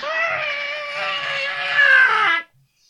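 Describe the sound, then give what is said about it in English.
A human voice imitates a car screaming in agony from a fault just after it sets off: one sustained, strained, high wailing screech of over two seconds that swells slightly near the end before cutting off abruptly. “basically the sound of my car screaming in agony”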